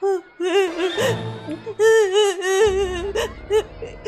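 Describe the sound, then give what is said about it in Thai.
A voiced rabbit in a told story, crying after failing an exam: a wavering, high-pitched whimpering sob that comes in several bursts separated by short pauses. “มีแต่เจ้ากระต่ายตัวเดียวเท่านั้นที่นั่งร้องไห้เพราะว่ามันสอบตก”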